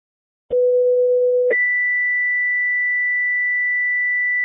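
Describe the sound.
Two-tone fire dispatch alert for a working structure fire, paging ambulance, tanker and engine units: a loud, steady lower tone lasts about a second, then jumps to a higher tone held unbroken to the end.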